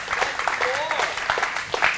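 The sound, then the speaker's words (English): Scattered applause from a church audience: light, uneven claps rising and falling in short bursts beneath a prominent speaking voice. “You can clap for the Word of God. I love churches that clap for the Word of God.”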